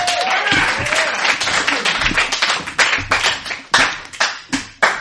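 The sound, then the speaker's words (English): Audience applause for a presenter at a video game talk event: loud, dense clapping at first, then thinning into scattered individual claps that ring out separately toward the end. “Hi, guys, and thank you for clapping extra.”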